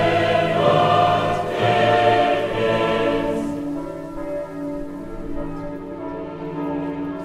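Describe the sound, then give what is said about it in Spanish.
Church bells ring in a few overlapping, resonant tolls whose tones hang and slowly fade, moderately loud, with no voices. “Y que cada noche de tormenta puede oírse el sonido de las campanas.”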